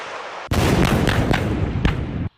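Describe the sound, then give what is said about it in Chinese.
Howitzer artillery firing at a target: a sudden loud, booming blast with a long, rumbling roar and a few sharper cracks within it, sustained for nearly two seconds before cutting off abruptly. “根据回传信息，榴炮分队自主解算装定射击诸元，向目标发起火力打击。”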